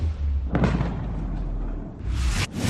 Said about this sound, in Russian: Взрывы не утихали, бахло раз за разом.